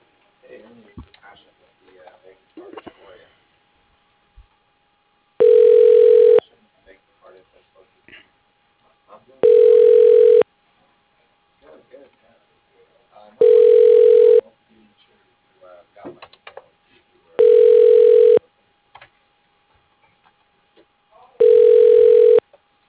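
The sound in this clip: A telephone call being put through to voicemail: five evenly spaced ringback tones, each a steady buzzing pulse, with faint voices murmuring in the quiet gaps between rings.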